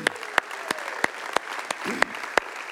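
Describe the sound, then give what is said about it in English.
Church audience applauding first-time guests, a dense bed of clapping cut by sharp, regularly spaced louder claps that keep a steady beat. “Can we give it up to all of our first-time guests?”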